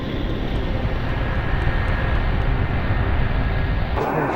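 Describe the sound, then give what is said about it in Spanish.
An airplane in flight gives a steady, loud, broad roar that holds even throughout and then drops away abruptly just before the end. “Tan pronto como obtuvieron las nuevas coordenadas, el avión cambió de rumbo.”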